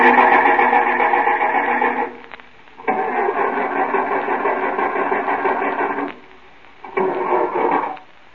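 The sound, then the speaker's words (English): An old car engine cranking on a push-button starter in three long bursts separated by short pauses, each a loud, steady buzzing whir. “Got one of them push-button starters. Yeah, that's an improvement over the crank. Yep. I'll just turn it over a few times so you can see.”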